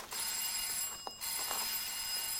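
Doorbell ringing at a house with shuttered windows, a sustained electric bell tone sounding in two long bursts separated by a brief gap, fairly faint.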